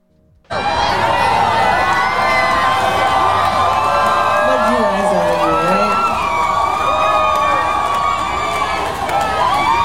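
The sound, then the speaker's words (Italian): Crowd booing at an Azealia Banks concert: a loud, sustained wall of jeering voices, shouts and whoops that holds steady from the start to the end. “Non sono molto felice di essere qui, continua Azealia Banks, che poi ha proseguito il suo discorso con i boo della folla.”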